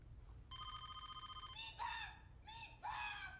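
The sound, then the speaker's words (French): A telephone rings unanswered with one long, buzzing electronic trill of about a second, steady in pitch and faint. “Tu passes un coup de téléphone à Midas.”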